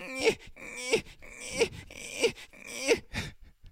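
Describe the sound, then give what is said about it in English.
A voice mimics Eli Manning whining and crying, giving a series of rhythmic, drawn-out wailing sobs that rise and fade several times, each moan ending in a catch of breath. “Play the clip. He starts whining and crying.”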